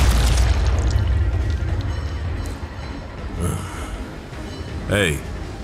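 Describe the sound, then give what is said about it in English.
A wrist missile fires and explodes in a video game: dense, rumbling game noise carries a couple of sharp bursts and booms toward the end. “Wrist missile.”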